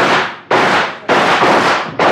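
A volley of gunfire as a band of men fire on command to drive off attackers: several loud, booming blasts, each with a long rough noisy tail fading out before the next, with no voices.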